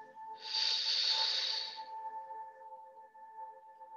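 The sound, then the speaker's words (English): A single slow inhale during a guided breathing meditation: a soft, airy hiss swells for about a second and a half, then fades out over a steady low hum. “Now exhale slowly. Again, inhale.”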